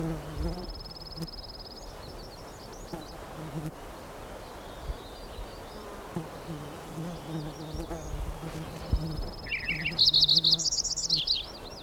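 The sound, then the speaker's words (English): A fly buzzes around in a thin, wavering drone. Bird chirps are scattered above it, and the sound grows busier and louder near the end. “A fly buzzing around.”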